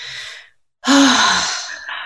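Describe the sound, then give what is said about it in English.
A deep breath taken with a hand on the heart as a calming practice: a soft breathy draw, a short silence, then a longer, louder, fuller breath that fades gradually. “literally place a hand on your heart, take a nice deep breath.”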